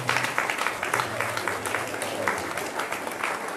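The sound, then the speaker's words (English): An audience at a church service gives steady applause, many hands clapping in a dense, even patter that stays at one moderate level throughout. “Go ahead and give them another round of applause.”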